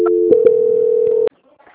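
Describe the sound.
A steady, single-pitched telephone tone plays while a phone call is transferred, with a few soft clicks over it, then cuts off abruptly into near silence.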